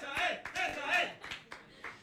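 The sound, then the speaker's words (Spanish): Scattered hand clapping from an audience at a Spanish-language event, a few sharp separate claps heard under ongoing talking. “Bueno, ahí los dejo para que sean todos bueno, el aplauso, por favor.”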